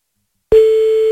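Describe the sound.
Ringback tone of an outgoing call placed to a fast-food restaurant: after half a second of silence, one steady, clear mid-pitched tone begins and holds unbroken to the end.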